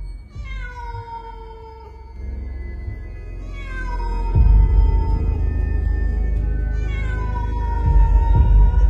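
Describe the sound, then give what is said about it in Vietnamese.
A stray cat wails mournfully in a garden, giving three long, drawn-out meows that each slide downward in pitch, with a low rumble underneath the later cries. “Ngoài kia hình như con mèo hoang nó vẫn chưa đi, nó có vẻ vẫn cứ loanh quanh ở trong vườn, kêu lên những tiếng não nề, nghe mà nổi cả da gà.”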